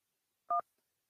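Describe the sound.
A single short telephone keypad tone pressed in answer to a call-acceptance prompt, a brief, clean two-pitch beep heard alone and fairly faint against silence.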